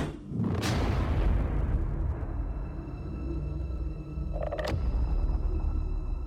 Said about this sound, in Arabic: قطع حبل افكاري خبطة تانية بس على باب القبر من جوه.